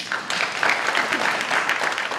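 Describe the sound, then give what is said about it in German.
Applause from participants at a youth climate meeting in Lausanne, greeting Swedish climate activist Greta Thunberg: steady, dense clapping from many hands at an even, moderately loud level, with no talk. “Die schwedische Klimaaktivistin, die die Schulstreikbewegung angestoßen hatte und in Lausanne als ganz normale Teilnehmerin dabei war, erntete Beifall.”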